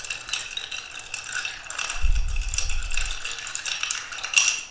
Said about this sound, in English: I'm mixing with a fork.